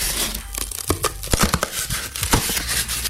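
Tin foil is crumpled and crinkled in a steady run of sharp, irregular crackles and rustles, with no voices.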